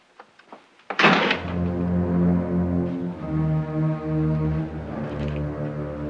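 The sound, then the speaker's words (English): A few faint clicks lead into a solid thud as a bedroom door is shut, and a sustained low droning tone with steady harmonics carries on after the impact. “Norman returns to the bedroom, shuts the door, and switches on the light.”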